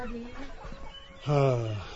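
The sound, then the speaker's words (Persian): Hens and roosters in a yard: a single loud, harsh cluck near the end stands out over a low, rustling background murmur. “بله مشغول نگهداری از مرغ و خروس ها.”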